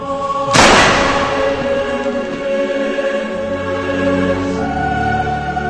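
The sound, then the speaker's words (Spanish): A single gunshot fired at point-blank range during an execution: one sharp, loud blast near the start, then fading over a steady tonal drone that continues to the end. “le disparó un tiro en la cabeza a quemarropa.”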